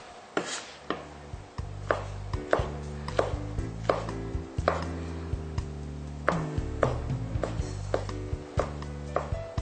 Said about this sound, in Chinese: 再把木耳也切碎